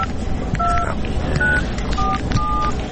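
Telephone keypad dialing tones from a phone call being placed: a few short electronic beeps, each a steady two-tone pitch, sounding over constant loud background noise.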